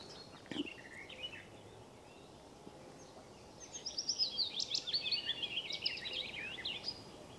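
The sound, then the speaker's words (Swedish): Willow warbler and garden warbler sing faintly over a steady background hiss, a short high twittering phrase followed by a longer run of quick, bright, warbling notes. “Just nu är det lövsångare och trädgårdssångare som sjunger.”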